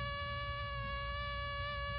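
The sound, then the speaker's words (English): The wingbeat buzz of a malaria-carrying mosquito: a steady, faint, high-pitched whine with layered harmonic overtones that holds unbroken and even for two seconds. “That's the sound of a potentially harmful mosquito that can carry malaria.”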